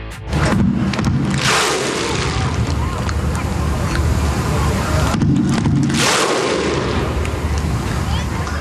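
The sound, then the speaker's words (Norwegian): Thousands of Icelandic fans gather to welcome home their national football team, their massed crowd noise loud and continuous, surging twice into big roaring swells. “ropet ligner på det islandske ropet under fotball-EM I 2016. Og vi kan jo høre hvordan det hørtes ut når flere tusen islendinger hadde samlet seg for å ønske landslaget velkommen hjem.”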